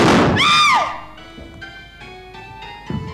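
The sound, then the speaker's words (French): A gunshot in a 1955 French stage-play recording: one sharp, loud burst at the start, followed by a swooping, arched tone and then sustained, quieter musical notes. “Il a tiré.”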